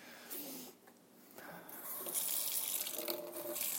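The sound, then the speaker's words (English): Water spraying from a kitchen sink sprayer that tends to stick, rinsing out the inside of a Vitamix blender, a hissing, splashing flow that briefly dips and then grows louder and fuller. “Now, I use the sprayer, whatever that's called, the water pick in the kitchen, over the kitchen sink, which always gets stuck.”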